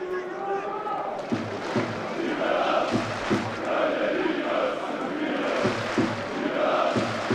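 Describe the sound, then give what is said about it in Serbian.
Football fans cheering and chanting for Serbia and Partizan in a stadium, with flags raised: a constant crowd roar punctuated by repeated low thumps, running under a commentator's voice. “Razvijene zastave iz Srbije. Navija se za Srbiju, navija se za Partizan.”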